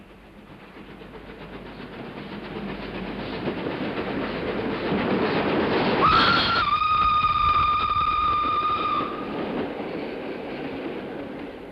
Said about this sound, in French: Le buffet d'une gare de province.